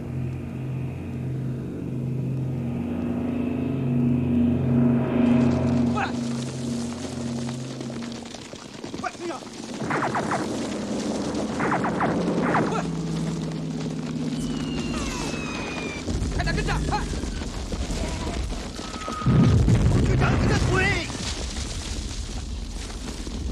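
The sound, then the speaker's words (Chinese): Enemy aircraft attack on troops: a heavy rumbling roar with deep booms and blasts, loud and continuous throughout, with voices shouting beneath the din. “敌机来了！ 隐蔽。”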